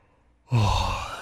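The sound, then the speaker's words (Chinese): A drunken man yawns once, a single sudden, breathy, low-voiced sound that swells and then slowly tapers off after a brief quiet start. “那醉汉打了一个哈欠”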